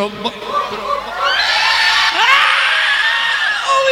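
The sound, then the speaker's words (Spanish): Women and girls in an audience scream together, a loud, sustained, high-pitched mass of shrieks that swells partway through, with some laughter and shouting mixed in. “Venga, los gritos de las mujeres y de las chicas, ¿eh? Venga. Un, dos, tres.”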